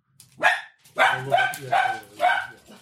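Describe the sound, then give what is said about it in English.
Dogs barking in a city: a few short, mid-pitched barks in quick succession with brief gaps between them. The barks are fairly loud and heard alone, with no talk. “Dogs. City dogs.”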